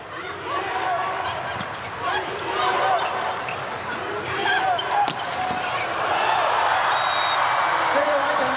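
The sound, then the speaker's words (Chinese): A volleyball is bounced on the court before a serve at an international women's volleyball match between China and Turkey: a few sharp thuds under steady commentary and crowd noise. “比赛继续，基萨尔来发球，”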